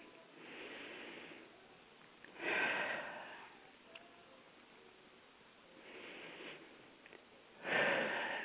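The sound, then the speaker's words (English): Two slow deep breaths taken during a guided calming breathing exercise, each a soft airy inhale followed by a louder rushing exhale through the nose and mouth, with no talking. “I love taking deep breaths. I feel like it's so therapeutic, and it is.”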